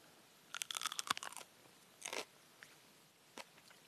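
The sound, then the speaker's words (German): Crisp crunching as someone bites into and chews a chili pepper: a dense cluster of sharp crunches, then a shorter burst and a few faint, scattered clicks, with no talk. “Chilis haben ein ganz breites Geschmacksspektrum. Ich probiere mal eine, hm, ja, vielleicht von denen hier.”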